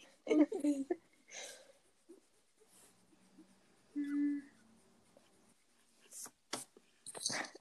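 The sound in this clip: A pen scratches on paper as a hand draws, in uneven bursts of rustling and scraping, with people talking and breathing in between.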